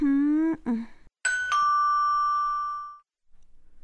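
A doorbell rings out with a two-tone ding-dong chime. The second, lower note rings on clearly and slowly fades to silence, followed by faint rustling.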